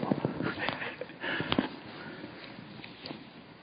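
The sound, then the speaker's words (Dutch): Breath blown through the nose into a microphone, a few short huffing, sniffing bursts in quick succession that then thin out, fairly faint and without speech. “Als ik zo zit, blaas ik met mijn neus in de microfoon, hoor ik. Ik doe hem er even voor.”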